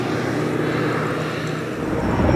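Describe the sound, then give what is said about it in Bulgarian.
Aircraft engines drone as planes and helicopters circle for hours over a smoldering forest fire near Sivir, dropping water on the burning woodland. The deep, steady roar holds through the whole clip at fairly constant loudness, with no talk. “Часове наред самолети и хеликоптери не спираха да кръжат, за да обливат с вода тлеещата гора.”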